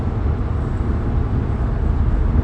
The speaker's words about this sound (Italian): Aspetta, eh, che devo fare un mega sorpasso.